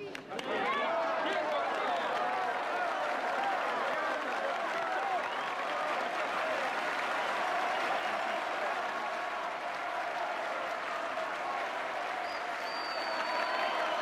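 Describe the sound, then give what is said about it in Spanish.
Sustained applause from a crowd in a tango club salon for a doctor: a dense, even wash of clapping that holds steady throughout without pause. “Fuertes aplausos para el doctor del tango.”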